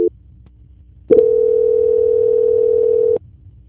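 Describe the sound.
A telephone tone plays as a call is being transferred: a brief beep, then a steady, single-pitched tone holding for about two seconds before it cuts off, with no talk.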